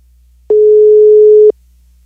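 A single ringback tone sounds on an outgoing telephone call. It is one steady, unwavering burst of about a second, heard alone with no voices.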